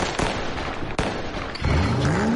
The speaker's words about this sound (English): Light up the sky this 4th of July with Crazy Joe's Fireworks.